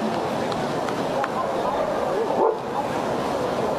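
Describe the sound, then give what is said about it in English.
Dogs bark and yip faintly in the background at a baseball game in St. Paul on a dog day at the ballpark. A few short barks sit under the steady talk of a play-by-play commentator. “You might hear some dogs barking in the background.”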